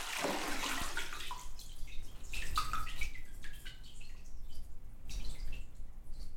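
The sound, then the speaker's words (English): Water trickles and drips as it drains from cotton and abaca paper pulp. The flow is a soft, continuous trickle with scattered small drips, faint throughout. “And this is more of a slow draining pulp because I left it in the beater over an hour. And there's some avoca in there too. If it was just straight cotton, it probably would drain a lot faster.”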